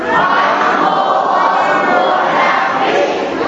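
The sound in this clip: A crowd at a Palm Sunday church procession shouts acclamations together, a loud, continuous roar of massed voices with no pauses throughout.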